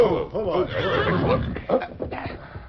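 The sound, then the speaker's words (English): Horses neighing as three horsemen rein up, with several high, wavering whinnies that overlap and rise and fall in pitch, loud and close together before fading near the end. “Finally, the three horsemen reined up.”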